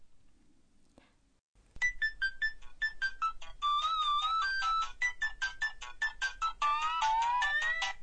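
A telephone rings for an incoming call with an electronic, melodic ringtone that plays a repeating pattern of short, bright tones. It starts abruptly after a brief quiet stretch and continues steadily and fairly loud to the end.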